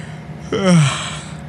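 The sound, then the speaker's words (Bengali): A boy yawns once during a drive on a winding mountain road: one breathy, voiced yawn that swells and slides downward in pitch over about a second, then trails off into faint hiss after a short quiet start. “এইসব দৃশ্য দেখতে দেখতে একটা high তুল্য পটাই”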